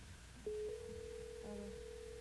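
Ringback tone of a phone call waiting to be answered: a faint, steady electronic tone starts abruptly and holds, with a second tone briefly layered in partway through.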